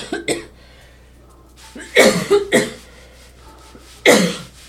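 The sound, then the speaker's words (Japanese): A person coughs in short, harsh bursts: a quick pair at the start, a tight cluster of three in the middle and one last cough. The bursts are separated by quiet pauses. “この咳してるとこも切らないけどね。”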